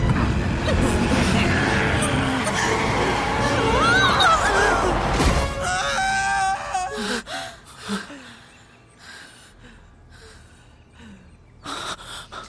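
A glass window is smashed amid a loud, dense burst of crashing noise lasting several seconds, mixed with gasps and cries, followed by scattered thuds and rustles as the commotion dies down.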